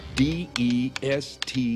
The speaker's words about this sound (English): Well, what are you waiting for? Go for it. Just type it out and hit return.